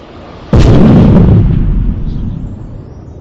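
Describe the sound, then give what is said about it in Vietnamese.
A huge explosion bursts in suddenly as one loud, deep boom, then rolls into a long rumbling decay that fades slowly over the following seconds. “Một tiếng nổ cực lớn vang lên, như thể cả bầu trời cũng sập xuống.”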